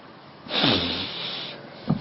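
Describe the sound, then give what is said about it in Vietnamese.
A long, deep breath drawn during Buddhist chanting practice: a steady breathy hiss lasting about a second, with a short faint sound just after it. “Hít hơi dài.”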